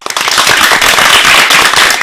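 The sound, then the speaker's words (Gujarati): Loud, dense applause from an audience at a children's performance event, a thick, continuous patter of many hands from start to end. “આ તાળીઓના ગડગડાટને વધારવા માટે તૈયાર છો ને?”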